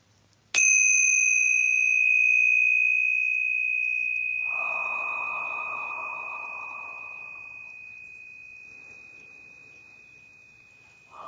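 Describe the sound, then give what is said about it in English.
Tingsha bells are struck once, giving a bright, high, pure ring that sustains and fades slowly over about ten seconds, with a long, deep breath heard partway through. “I'm going to ring the tincture bells to kind of raise that vibrational frequency and prepare our sacred space for channeling today.”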